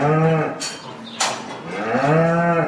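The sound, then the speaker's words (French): Calves lowing on a neglected farm, two long, low-pitched harmonic moos, one at the start and one near the end, with a quieter stretch of softer bellowing between them and no talk over the calls. “Regarde les petits veaux là qui essayent de trouver un endroit sec un petit peu”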